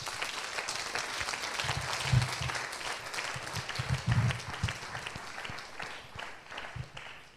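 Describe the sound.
Faint applause from a church audience clapping for the Lord, a continuous rustling patter that swells slightly midway and then gradually thins out toward the end.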